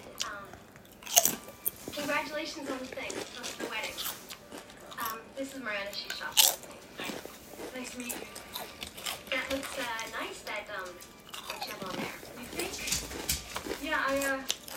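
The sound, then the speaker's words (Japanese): Potato chips being eaten, with a few sharp crunches and chewing mixed under a continuous stretch of talk. “もう食べるわポテチを食らうよ”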